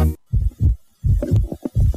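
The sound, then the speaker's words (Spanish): A heartbeat linked to pregnancy, heard as low, soft thumps falling in paired beats with a steady rhythm, several beats in a row standing alone with no voices. “Hay momentos en la vida que lo cambian todo, como ese primer latido.”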